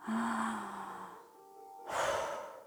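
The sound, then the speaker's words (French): Slow breathing from a person following a guided countdown. One long, soft breath fades away, followed by a short pause and then a second, louder breath. “Continue à respirer.”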